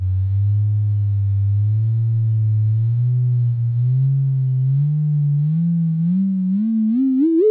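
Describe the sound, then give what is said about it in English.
A sonified gravitational-wave chirp from two rapidly spinning black holes plays as a pure, low humming tone with a wavering modulation. It climbs slowly in pitch, then sweeps sharply upward and grows slightly louder at the end. “So that is almost an identical system. But what's different here is that the two black holes that are in this system are very rapidly spinning.”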